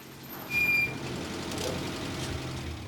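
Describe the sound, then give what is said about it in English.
A van engine rumbles as the van drives through a village and pulls up outside a house on a lane, a low, steady hum that swells briefly near the start. “She jumps into the driver's seat and drives through the village, her jaw set. The van pulls up across the lane outside Bethan's house.”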